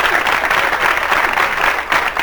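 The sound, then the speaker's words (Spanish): Loud audience applause for a Chilean contestant at a live comedy show: dense, even clapping that keeps going without a break. “¡Aplauso para el representante chileno!”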